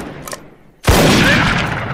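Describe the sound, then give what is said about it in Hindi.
Gunfire in a shootout with bandits: a sharp, loud blast cuts in after a quieter, rumbling stretch, followed by a sustained rough roar of firing that stays loud to the end. “डाकू लगातार गोलियां चला रहे हैं”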